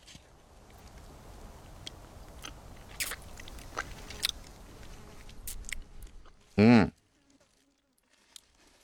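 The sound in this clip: Crisp biting and chewing of a fruit: small crunches and rustles over steady background noise, then one loud, sharp bite near the end, followed by near silence.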